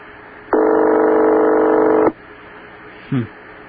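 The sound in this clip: Electronic telephone ringing: one steady, buzzy ring tone holds for about a second and a half, followed shortly by a brief, faint chirp.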